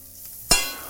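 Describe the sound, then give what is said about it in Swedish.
Onion and mushroom stirred together in a frying pan: a single sharp clatter after near silence, followed by a soft sizzle that slowly fades. “Nu blandar jag lök och svamp.”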